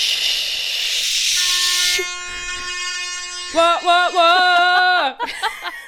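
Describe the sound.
Horn sound effect played from a phone app: a burst of hiss gives way to a long, steady, multi-toned horn blast, loud and sustained, with voices joining in over its later part.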